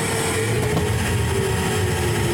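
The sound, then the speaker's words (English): A pneumatic tube system runs with a steady whooshing rush of air and a constant motor drone carrying a faint tonal whine. It stays loud and unchanging throughout. “And it's time to flip on the pneumatic tube. Here we go.”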